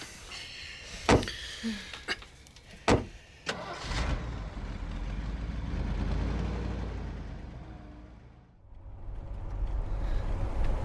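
People climbing into a car, with several sharp car door thuds and clunks, after which the engine starts and keeps running as a steady low rumble that swells, dips briefly, and returns.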